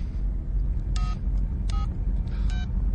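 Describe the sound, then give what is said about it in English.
A telephone number is dialed: three short, clear DTMF tones spaced apart over a steady low rumble. “Dial your number. Go ahead.”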